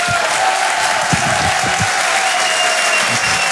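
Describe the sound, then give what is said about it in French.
An audience at a live comedy show applauds loudly and steadily, with dense clapping and some crowd noise mixed in, holding an even level from start to finish. “Je vous demande de faire un maximum de bruit et de l'encourager.”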